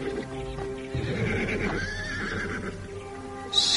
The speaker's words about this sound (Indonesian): Kemudian kuda itu diikatkan pada sebatang pohon waru yang tumbuh di halaman rumah itu.